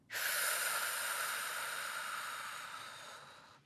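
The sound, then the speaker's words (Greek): A deep meditation breath: a single airy, hissing rush that swells quickly, then slowly fades over about three seconds. “βαθιά εισπνοή, εκπνοή, άφησε όλη την ένταση να φύγει.”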